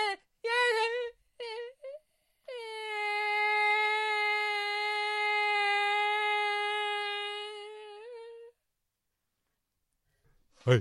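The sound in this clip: A baby, the grandchild, cries: a few short, broken whimpers come first, then one long, steady, sustained wail that holds its pitch for several seconds before stopping, followed by quiet.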